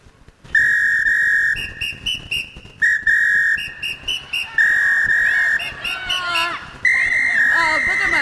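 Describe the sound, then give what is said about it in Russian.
A man whistles a tune in clear, bright, high-pitched phrases that are sustained and separated by short gaps, with some notes sliding and wavering in pitch toward the end. “А мужчина продолжает насвистывать.”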